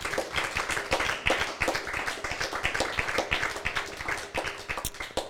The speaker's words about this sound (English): Can we give the Lord a hand of praise?